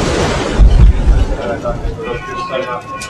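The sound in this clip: A mine shaft lift rises at about six metres per second in the Kłodawa salt mine, making a heavy low rumble and rushing noise that swells early and then eases, with people talking over it.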